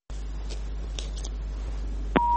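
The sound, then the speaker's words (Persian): A telephone call on a radio phone-in cutting off: a steady low line hum runs throughout, then a sharp click near the end is followed by a continuous mid-pitched tone. “آها تماسشان قطع شد، یک تماس دیگه هم داریم.”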